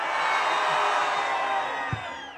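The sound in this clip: Festival crowd cheering at the Donauinsel, a dense, steady roar of many voices that holds at an even loudness throughout, with one brief low thump near the end.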